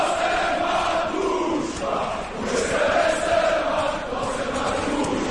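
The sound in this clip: A crowd cheering at a village square or sports ground, a dense sustained roar of many voices that swells and dips slightly without pause.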